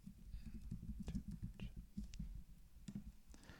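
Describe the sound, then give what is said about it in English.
Quiet typing on a computer keyboard: many irregular key clicks in quick bursts with brief pauses, faint and alone. “type something in”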